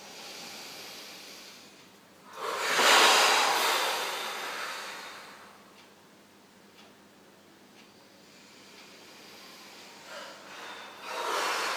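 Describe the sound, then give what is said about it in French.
A deep breath drawn in during a guided relaxation exercise: a long, airy inhale that swells and fades over a couple of seconds, followed by quieter, softer breathing. “Allez, on inspire.”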